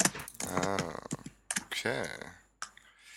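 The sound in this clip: Typing on a computer keyboard, with quick clusters of sharp clicks interleaved with a person talking during a live chat session.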